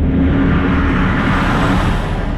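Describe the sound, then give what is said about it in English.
Heavy trucks hauling materials rumble down rural roads around a large construction site, a loud, continuous low rumble with a broad whooshing wash of road noise. “Heavy trucks hauling all sorts of materials rumble down the rural roads surrounding Intel's New Albany site.”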